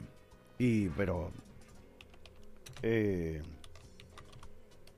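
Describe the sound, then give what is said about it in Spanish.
Typing on a computer keyboard: many light, rapid clicks run steadily throughout, while two short voiced sounds rise loudly over them. “Estoy escribiendo acá algo porque quiero ver si encuentro algo.”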